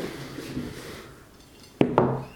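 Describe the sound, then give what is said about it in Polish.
Plates being laid out on a table while setting it: two sharp clinks in quick succession near the end, after a faint background rustle. “No więc ja sobie teraz te talerzyki rozłożę”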